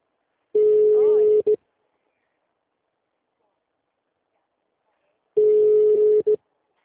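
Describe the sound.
Ringback tone of an unanswered telephone call: two steady single-pitched rings, each about a second long with a brief blip at its end, separated by a long silent gap.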